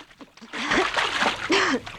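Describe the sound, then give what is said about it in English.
Splash of a person dropped from a window into a swimming pool: a loud burst of splashing and sloshing water that lasts over a second, rising abruptly from near-quiet. “They drop Plenty out of the window and into a swimming pool.”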